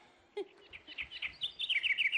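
Birds chirp in quick, high-pitched runs of short notes that grow louder and denser toward the end, after one lower call near the start.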